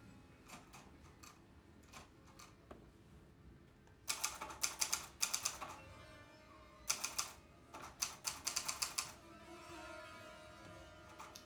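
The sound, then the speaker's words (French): Letters typed on a typewriter, with sharp, crisp keystrokes arriving in quick clusters separated by quieter gaps, as scattered single strikes give way to rapid bursts of typing. “la frappe des lettres sur la machine à écrire”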